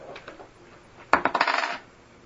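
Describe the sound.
Dice rolled on a table for a spell-casting roll in a tabletop roleplaying game: a brief, hard clatter of quick rattling impacts over a faint low background, with no voices.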